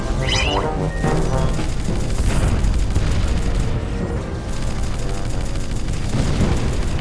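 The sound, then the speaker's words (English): Weapon fire from a ship attacking a capital ship in a space combat video game: continuous dense blasts and rumbling booms throughout, with a brief high zap near the start. “That'll teach them. Firing on the second capital ship.”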